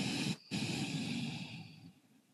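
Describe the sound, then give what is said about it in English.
A slow, deep exhale through the nose during a guided breathing exercise, a soft, airy hiss that breaks off briefly, resumes, and fades to near silence. “And exhale through the nose. Inhale deeply from the belly and exhale.”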